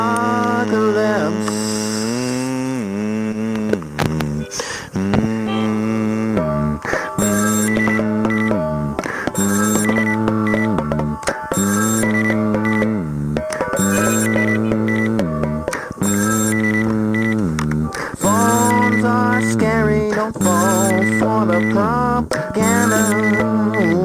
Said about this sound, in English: It has a scary red face. It wants to kill me, I think. Hey, people, wake up. It's a phone